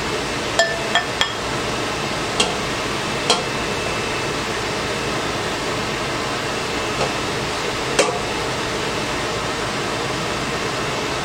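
Light clinks of a bowl and scooper while preparing dinner with asparagus, tomato and tuna in a kitchen: a handful of sharp, bright taps, scattered and faint, over a steady background hiss.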